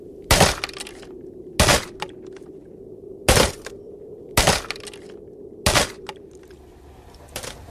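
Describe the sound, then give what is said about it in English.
A 14-pound sledgehammer smashes a tape recorder: six sharp, cracking crashes at fairly regular intervals, the last one fainter, with a low hum between blows. “please don't smash my tape recorder with that 14-pound sledgehammer.”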